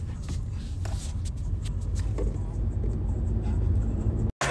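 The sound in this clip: Steady low rumble of a car being driven, engine and road noise constant throughout with faint talk over it and a brief dropout near the end.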